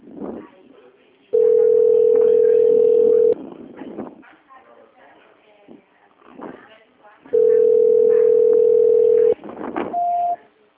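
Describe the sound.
A telephone dial tone sounds while a call is placed: a steady, loud tone lasts about two seconds, returns for another two seconds after a stretch of talk, and a brief higher beep follows. People talk in between.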